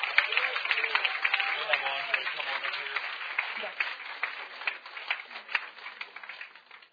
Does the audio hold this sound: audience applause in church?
yes